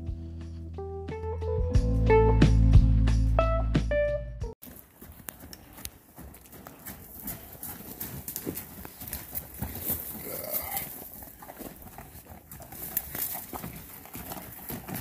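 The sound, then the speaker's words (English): Hooves clip-clop as mules, a horse and donkey cross, run by outdoors. Many quick, fairly faint hoofbeats play over a steady noisy background, after a short opening stretch of tonal musical notes. “And here's the audio from the video that I was filming while the mules ran by.”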